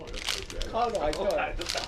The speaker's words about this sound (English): I'll remove the label. He peels off the label from around the plastic bottle.